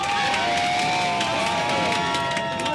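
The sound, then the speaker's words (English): Anti-regime activists cheer a New Zealand goal in a football match against Iran shown on TV: a sustained roar of shouts and whoops with scattered clapping. “Just down the street, a group of anti-regime activists crowded around a TV. They cheered when New Zealand scored the first goal.”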